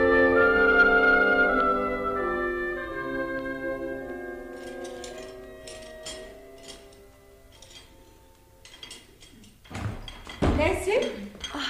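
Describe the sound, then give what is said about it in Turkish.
Dishes and cutlery clatter as someone washes up in a kitchen. A few sharp, clinking bursts come near the end, after several seconds of sustained musical tones. “Ben mutfakta bulaşıkları yıkarken”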